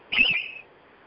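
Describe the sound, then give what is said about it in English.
Short high-pitched electronic chirp from a device signalling a received PDF, a single bright tone lasting about half a second, then quiet. “Was that you chirping? It was. I just received another PDF.”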